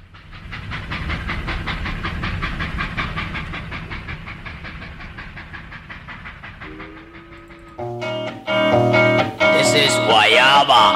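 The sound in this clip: A train carriage rolls along the rails with a steady rhythmic clatter and hiss that slowly eases off. Bright music with sustained tones cuts in near the end and grows louder.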